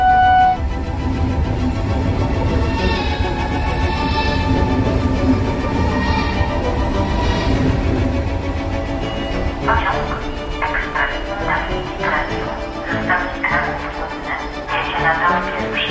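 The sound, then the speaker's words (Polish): A passenger train from Kraków to Sopot pulls into platform one at Sopot station with a steady, dense rumble and rattle. Rhythmic clattering and brighter metallic tones grow through the second half. “Pociąg do Tischnera z Krakowa do Sopotu jeżdża na tor pierwszy przy peronie pierwszym.”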